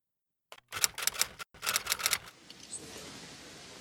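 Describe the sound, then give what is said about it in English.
Typewriter-style typing accompanies words appearing on screen: two rapid bursts of crisp clacks separated by a short pause, then a faint lingering hiss. “It begins with the following words being typed out on the screen: October 15th, 2001, Washington, D.C.”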